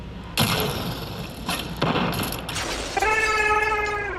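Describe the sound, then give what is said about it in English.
Quicksilver Storm weapon firing in the video game Destiny: a few heavy blasts with hissing tails, then a sustained electronic humming whine. “and this is the magnetic bottle, pulling the trigger should section off a round. Then what actually fires?”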